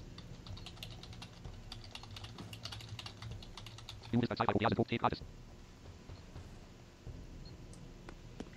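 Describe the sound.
Typing a message on a computer keyboard produces a short burst of rapid clicking lasting about a second, rising out of faint, constant background noise.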